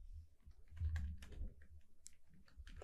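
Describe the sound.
Faint computer keyboard typing as a note is written, with many quick keystrokes in an irregular rhythm, soft clicks pattering throughout with no voices.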